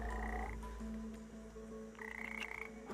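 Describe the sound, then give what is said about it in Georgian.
Frog croaking while held stretched between sticks and irritated to release its poison; faint buzzing tonal calls, then a quick run of rapid pulsed croaks toward the end over a low steady hum. “ბაყაყი კი თავის შხამს გამოყოფს.”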